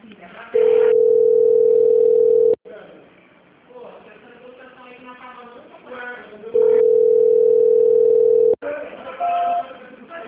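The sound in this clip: Telephone line tone during a call transfer: two long, steady, mid-pitched tones, each lasting about two seconds. Between them come muffled voices and line noise, all with a narrow phone-line sound.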